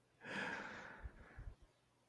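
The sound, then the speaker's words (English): A sharp inhale, breathy and fairly loud, lasts under a second and is followed by a few soft, low mouth or body sounds before quiet. “You took like an inhale. I thought you were going to say something.”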